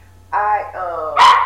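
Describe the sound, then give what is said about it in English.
A puppy barks and whimpers in a few high, strained yelps that run into one another while it frets. “Puppy is in the building. So, if you hear him, that he is freaking out a little bit.”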